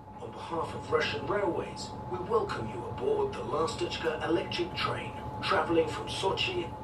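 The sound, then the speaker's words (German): Running rumble of the Lastochka train travelling from Sochi into the mountains to Krasnaya Polyana, a steady low drone with a faint constant tone, heard beneath a person talking. “Lastechka, Schwälbchen, heißt der Zug, der von Sochi nach Krasnaya Poljana in die Berge fährt.”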